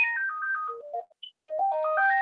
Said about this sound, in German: Das ist nicht hier die Startmelodie, aber das ist ein Telefon, das ich nicht abheben muss.